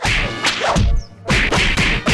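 A punch lands during a self-defense demonstration: quick swishes through the air and sharp, loud whacks come in a few fast impacts within about two seconds.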